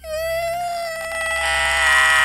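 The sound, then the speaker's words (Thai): Shrill, eerie scream echoing through a forest after gunfire from a camp. A single sustained high wail with a bright, harmonic-rich tone holds a steady pitch, then grows louder and harsher toward the end. “ก็ได้ยินเสียงหวีดร้องกังวานกึกก้องทั่วทั้งป่าเป็นเสียงร้องที่น่าสยดสยองยิ่งนัก”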